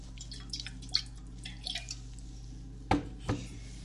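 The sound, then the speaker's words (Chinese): Rubbing alcohol sprinkled onto a bleeding wound to disinfect it, heard as wet drips: faint light taps early on, then two sharper splashes near the end over a low steady hum. “来，我帮你消毒，撒一下酒精。”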